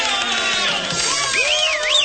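Audience ovation with cheering for a volunteer who tried aquatic ascending water skiing, a dense, steady roar of crowd noise with high wavering whoops or whistles sliding up and down near the end.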